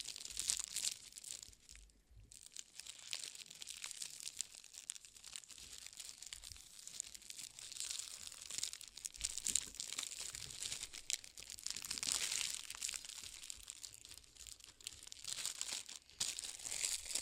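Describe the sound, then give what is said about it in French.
Soft paper crinkling and rustling as ribbon is wound around the twisted end of a paper candy wrapper, a faint, continuous handling sound with no speech. “Prenez le ruban et entourez l'extrémité pour que ça forme comme un espèce de flot.”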